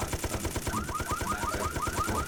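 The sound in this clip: Rapid automatic gunfire in a video game, a fast, steady stream of many shots at an even rhythm, fairly quiet and continuous throughout.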